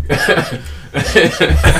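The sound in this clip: Harsh coughing from someone after a piece of debris hit the back of the throat comes in loud, rough bursts with a slight chuckling quality and a brief pause near the middle.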